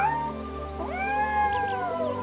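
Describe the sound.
A cat meows in a drawn-out, clear call with a shorter meow before it, over a steady low hum.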